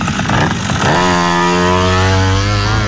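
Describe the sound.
A motor vehicle pulls away at full throttle on farmland, its rough start giving way after about a second to a loud, strong buzzing engine note that holds and climbs slightly.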